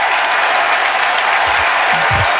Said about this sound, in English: Give me my applause. Give me my applause.